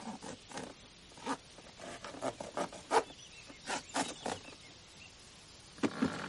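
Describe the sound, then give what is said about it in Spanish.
Adhesive tape on a box tears as a punch pushes out from inside, heard as a few quiet, scratchy ripping rasps at irregular intervals with near silence between them. “De su interior sale un punzón que rompe la cinta adhesiva.”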